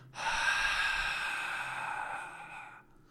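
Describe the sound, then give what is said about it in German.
One long, breathy in-breath through the nose, drawn like a zombie's hiss during a breathing exercise with the hips raised. The airy rasp sounds steady and fairly loud for almost three seconds, then stops abruptly. “Nase ein, wie ein Zombie, hauchend.”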